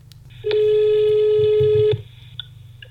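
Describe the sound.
A telephone call being placed: one steady, buzzy electronic tone about a second and a half long. It stops abruptly, leaving quiet, and no one speaks.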